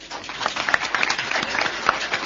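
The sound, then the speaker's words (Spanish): Hand clapping fills a hall as an audience welcomes speakers, a crisp, busy patter with scattered sharper claps, holding steady after a quick start. “con el saludo, con los aplausos de quienes nos acompañan aquí en la sala, vamos a ir recibiendo al doctor Carlos Maggi”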